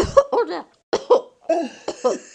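A woman choking and coughing on wine, heard as repeated harsh, strained coughs in three bouts separated by short silences. Gasping, voiced sounds are mixed in among the coughs.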